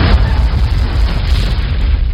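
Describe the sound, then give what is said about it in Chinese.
Booming crashes of large boulders rolling down a hillside, heard as a loud, unbroken low rumble with dense overlapping thuds that keep going without a pause. “山头上砰砰砰一阵响，滚下好多大石头，挡住了前后的路”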